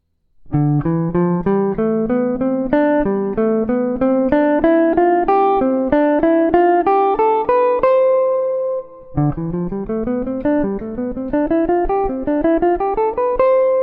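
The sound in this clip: A major scale played upward in steady eighth notes, one octave per chord, across a 2-5-1 progression. A single pitched instrument plays clean, evenly spaced notes in climbing runs, with a brief pause in the middle before the next run starts.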